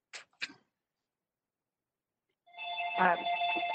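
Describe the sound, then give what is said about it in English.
A telephone ringing during a committee meeting: two short faint clicks, then a pause of silence before a steady tonal ringtone starts and continues, quiet overall. “my stupid phone is ringing”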